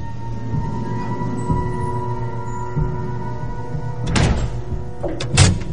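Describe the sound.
A hidden door in a basement wall opens after a key card is swiped into a wall reader. A steady mechanical hum runs throughout, followed by two heavy clunks near the end.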